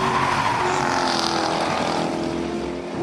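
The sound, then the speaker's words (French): Engine of a very rigid sports car driven fast through corners on a race circuit, a loud, steady, harmonically rich drone that holds throughout with no voices. “Vraiment une auto avec laquelle on peut s'amuser sur circuit et certainement aller chercher des Porsche ou autres Ferrari”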